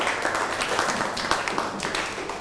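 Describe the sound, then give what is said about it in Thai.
Classroom applause for a student, many hands clapping in a dense, continuous patter at moderate loudness throughout. “อ้าวนั่งลงครับปรบมือให้เพื่อนหน่อย”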